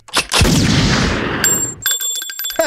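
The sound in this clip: Gunshot in a dramatic television scene: a loud, sharp bang followed by a long, harsh burst of noise that fades into high, ringing tones.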